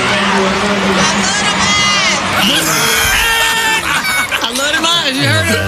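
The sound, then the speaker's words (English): An audience screams and cheers as a cast member is announced at a film cast reveal, a continuous, loud wash of high-pitched shrieks and crowd roar that never lets up. “And here is Michael Ealy gets announced. And listen to the audience, though. They wouldn't stop. This went on for about a minute or two.”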